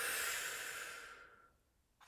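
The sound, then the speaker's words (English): A deep exhale during a guided relaxation breathing exercise: one long, breathy hiss that starts full and fades steadily over about a second and a half, then a faint new intake begins. “Another deep breath in. Exhale.”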